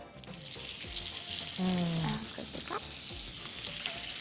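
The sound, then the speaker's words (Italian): Sizzling of rolls frying in already-hot oil in a pan while cooking for about a hundred people; a steady, bright hiss runs throughout, with some scattered clatter over it. “Allora, puoi iniziare a mettere questi in padella, perché l'olio è già caldo.”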